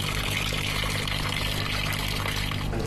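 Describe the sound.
Boiled toon tree bark dye liquid is poured into a vat for dyeing cotton thread, making a continuous, steady splashing rush of liquid that stays loud and even throughout.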